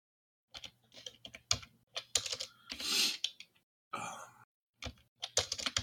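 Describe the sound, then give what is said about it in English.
Faint typing on a computer keyboard, coming in short irregular bursts of clicks separated by brief pauses, over a low steady hum. “Typing is hard.”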